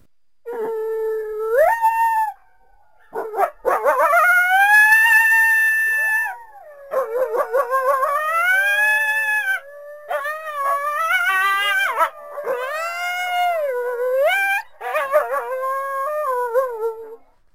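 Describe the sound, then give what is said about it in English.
Coyotes howling: several long, wavering high howls that rise and bend in pitch, overlapping in a loud chorus with short yips between them and a few brief pauses. “Well, some of the other suggestions were coyotes, which sound like this.”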